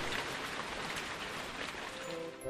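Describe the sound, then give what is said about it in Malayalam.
Heavy rain pours down in a steady, dense hiss that stays even and unbroken from start to finish, with no voices or other sounds over it. “ഭയങ്കര മഴയാ തണുത്ത് വിറക്കിയ ഞാൻ”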